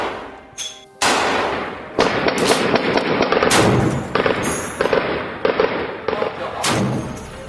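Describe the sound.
Sharp gunfire bursts and heavy explosions during the June 2014 armed offensive on Mosul, Iraq. Several loud, sudden blasts and crackling volleys hit over a dense, continuous rumble, with no voices.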